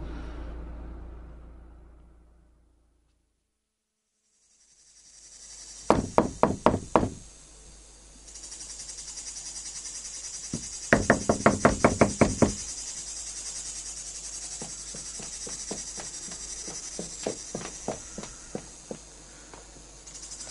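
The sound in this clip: Knuckles knocking on a door in three bursts of rapid raps. The last burst is softer and more spread out. The knocks follow a stretch of low hum that fades into near silence.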